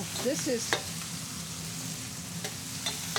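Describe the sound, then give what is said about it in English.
Garlic sizzles in a pan with pasta water, giving a steady frying hiss broken by a few brief stirring scrapes and clicks. “the garlic is beginning to cook”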